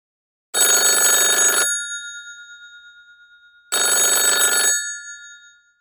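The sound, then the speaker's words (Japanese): A telephone rings in two separate bursts about three seconds apart. Each ring is a bright, loud, buzzing trill roughly a second long, with a lingering tone that fades away after it stops. “電話はありますか？はい。 はい、あります。”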